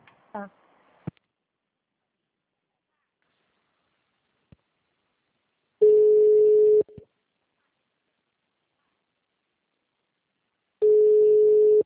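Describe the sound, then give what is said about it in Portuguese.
A telephone call being dialed and ringing: a quick burst of dialing tones at the start, then silence, then two long, steady ringback tones separated by a lengthy gap. “Vou ligar para eles.”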